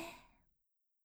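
A single deep exhale from a seated, cross-legged breathing exercise with eyes closed, soft and breathy, fading out within about half a second into silence.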